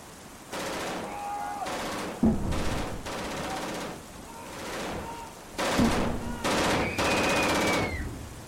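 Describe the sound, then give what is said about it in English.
Gunfire as people shoot: repeated rattling bursts of rapid shots, some long and sustained, others brief, fairly faint and broken by short gaps, with thin whistling tones drifting over some bursts. “They're shooting at innocent people. I think they're just shooting at anything that moves.”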